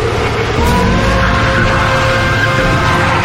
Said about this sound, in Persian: استارت میزنه.